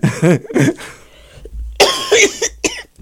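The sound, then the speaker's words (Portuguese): A few harsh coughs burst out after a man's voice, loud and abrupt, with brief voiced sounds in between. “Eu peço desculpa. Cortamos isto. Corta a tosse.”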